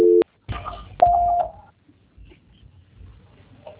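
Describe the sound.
Telephone tones sound as a phone call is being transferred: a brief dual-pitched keypad tone, then a longer steady single beep, with faint clatter between and after.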